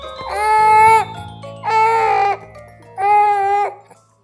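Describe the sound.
A baby girl cries after waking up, letting out three loud, high-pitched wails, each under a second long and separated by short pauses.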